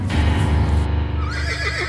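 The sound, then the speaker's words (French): An agitated horse neighing loudly in one sustained, shrill whinny whose pitch wavers and trembles toward the end, over a steady low rumble. “le fils tombe d'un cheval qui s'agite en tous sens et se casse une jambe.”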